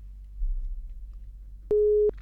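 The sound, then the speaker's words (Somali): A telephone busy tone after a caller's line drops during a radio call-in: a low line hum, then one loud, steady, pure beep lasting under half a second. “isna qadka telefoonka ayaa ka go-ay”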